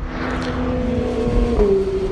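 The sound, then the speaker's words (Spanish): Engine of a first-series Porsche 911 driving on a race track, a loud steady droning note that steps up in pitch toward the end. “Pero mira, estoy viendo ahora mismo en pista el 911, el primera serie que os he dicho.”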